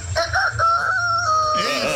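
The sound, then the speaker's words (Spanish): A person imitating a rooster crowing: one drawn-out, wavering vocal call that holds a high, strained pitch and trails off at the end. “Talento oculto es imitar como gallo.”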